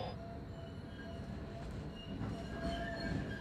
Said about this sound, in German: Irgendwann fährt die Bahn endlich weiter.